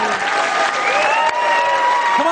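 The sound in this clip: An audience cheers and applauds a band's performance on a TV show, a dense, loud, continuous wash of clapping and cheering with a voice audible above it.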